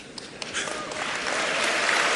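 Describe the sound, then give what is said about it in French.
A large audience at a mayors' association gathering applauds its president, a dense patter of clapping that starts moderately and swells into steady, louder applause. “Voilà le président de l'Association des maires de France, le LR François Baroin, très applaudi.”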